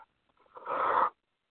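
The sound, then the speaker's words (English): One deep breath drawn in, a short airy inhalation of about half a second that builds and then stops, with quiet before and after. “Take a deep breath in.”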